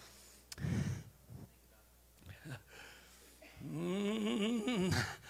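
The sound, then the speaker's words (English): Deep, noisy breaths drawn and released by people during a church sermon, a few breathy inhales and exhales in sequence, then a voice talking. “I want you to think about the power that you have. Do it one more time. Inhale. Exhale. It's the breath of God.”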